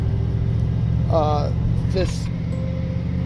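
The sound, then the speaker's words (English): A truck driving with its back window down gives a steady, loud low rumble with wind roar throughout, with a couple of brief, faint voice fragments over it. “this back windows need to go up, honey. I'm driving a truck with my wife and the back window's down.”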